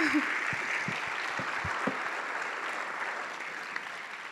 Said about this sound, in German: Ein bisschen Applaus, bitteschön.